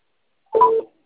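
A single touch-tone dialing beep sounds as a phone calls a bank's customer service line again. The steady electronic tone is short and plays alone.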